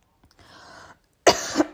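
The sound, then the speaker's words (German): A person coughs once, a short, forceful burst after a soft breath. “ich muss einmal ganz kurz husten, sorry”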